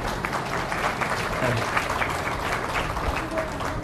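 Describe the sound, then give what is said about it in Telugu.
Audience applause at a devotional discourse gathering: a dense, steady patter of many hands clapping, fairly loud and sustained without a break. “మీకోసం వాళ్ళు చప్పట్లు కొట్టారు కదా, మరి వాళ్ళ కోసం మీరు కొట్టద్దా? కొట్టండి అందరం.”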